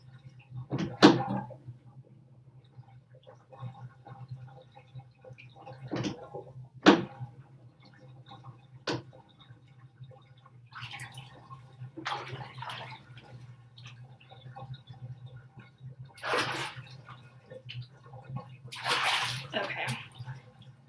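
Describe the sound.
Bathtub water draining after the plug is pulled: a few sharp knocks and splashy, gurgling bursts scattered over a steady low hum, mostly faint.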